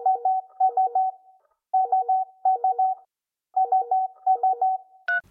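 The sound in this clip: Mobile phone keypad dialing a number in touch-tone beeps: many short, mid-pitched tones in three quick bursts separated by brief pauses, loud and alone.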